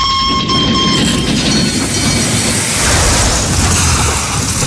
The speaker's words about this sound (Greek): Τώρα τρέχουμε. Τώρα φρενάρουμε. Έτσι, το τρένο δεν βγαίνει ποτέ από τις ράγες.